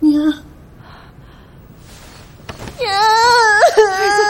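A woman cries with a short whimper, then quiet, gasping breaths, then a loud, high, wavering wail that rises and falls until the end.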